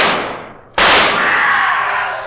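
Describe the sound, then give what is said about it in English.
A single pistol shot fired in a moonlit cemetery: a loud, sharp crack that rings out in a long, slowly fading decay. “Watson, there's Hugo Gibbon running through the cemetery in the moonlight. Quick, fire your pistol.”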